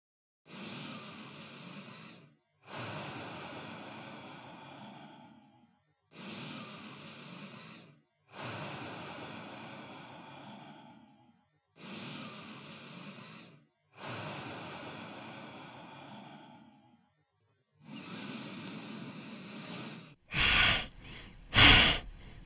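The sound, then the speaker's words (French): Long, hissing nasal breaths out through the nose in a breathing exercise, seven of them in a slow, regular rhythm with short silent gaps between, followed by a brief, louder burst of a different sound at the very end. “Puis soufflez par le nez. Allez, une dernière fois.”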